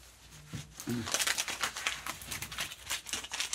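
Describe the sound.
An old paper map is unfolded, giving a dense run of crinkling and rustling paper crackles over several seconds, with a voice briefly present near the start.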